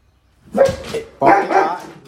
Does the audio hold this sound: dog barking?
yes

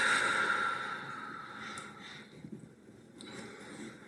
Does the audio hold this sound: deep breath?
yes

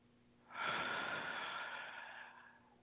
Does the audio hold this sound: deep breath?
yes

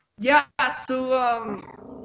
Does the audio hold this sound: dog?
yes

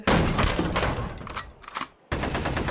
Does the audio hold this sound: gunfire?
yes

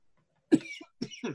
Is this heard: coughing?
yes

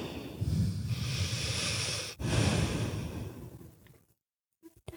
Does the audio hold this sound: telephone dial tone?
no

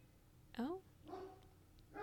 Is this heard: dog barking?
yes

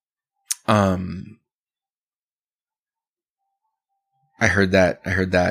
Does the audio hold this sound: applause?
no

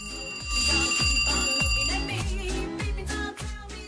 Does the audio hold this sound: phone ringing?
yes

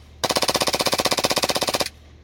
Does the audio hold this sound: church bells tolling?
no

